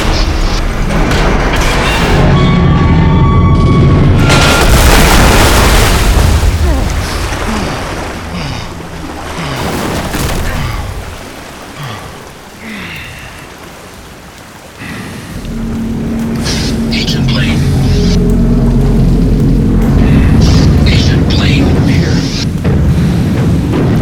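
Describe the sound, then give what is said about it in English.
An elevator tears loose from its supports in a shaft, a loud, sustained roar of deep rumbling and booming that eases off midway, then swells and builds again toward the end. “I believe the elevator is about to tear loose from its supports. I believe that too. You must climb free of the shaft before it falls.”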